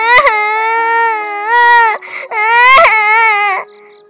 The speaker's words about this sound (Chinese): 艾萨接着哭了起来。艾萨，别哭了，艾萨，别哭